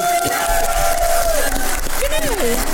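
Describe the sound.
A live show audience cheers loudly, with raised voices, shouts and whoops rising and falling over a constant wash of crowd noise; distinct clapping is hard to pick out beneath the cheering.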